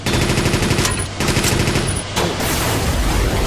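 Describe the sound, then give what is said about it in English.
Rapid machine gun fire in a video game, a loud, continuous rattle of shots broken by two brief pauses and then resuming without any talk. “Speed machine gun. Good grief. This is crazy.”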